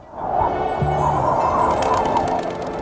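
Bird chirping forms part of a radio station jingle, set within a dense, sustained layered sound that holds steady and then fades slightly at the end.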